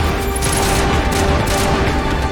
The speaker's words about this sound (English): We actually shot very close and then managed to hit.